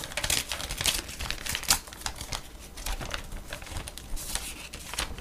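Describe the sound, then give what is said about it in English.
Faint paper crinkling and rustling as a gold-covered paper envelope is opened, with many small dry crackles in quick, uneven bursts. “As I open up the golden clad envelope.”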